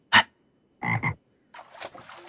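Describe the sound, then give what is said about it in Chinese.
A toad croaks in a few short, raspy bursts: a single sharp croak, then a quick double croak, then a longer rattling croak, loud against silence with no talk. “蛤蟆闻言咕呱一声，纵身一蹦，往一个方向去了。”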